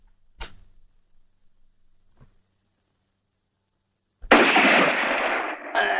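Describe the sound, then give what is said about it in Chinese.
A single sharp gunshot cracks out, followed by a faint pop and, after a silent gap, a long loud noisy burst. “这一枪是你打的？”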